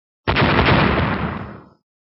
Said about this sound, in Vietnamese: Ngao Tổ vừa dứt lời, một tiếng nổ rầm trời liền phát ra trên đỉnh đầu của gã.